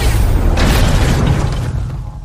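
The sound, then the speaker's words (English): A gun is fired in an action film scene, sounding as a single heavy, booming blast that stays loud and dense throughout and eases off only slightly at the end. “And then Loki starts to say something and Coulson opens fire.”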